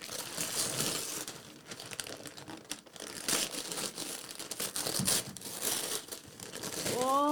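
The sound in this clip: Paper crinkling and tearing as a gift package is unwrapped, a steady stream of crisp rustles and rips at moderate volume with brief pauses in between.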